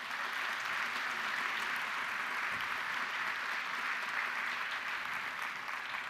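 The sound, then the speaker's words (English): A church audience applauding to welcome a new member during a Baptist service: steady, even clapping from many hands throughout, with no voices standing out. “If you'll give her a big central welcome.”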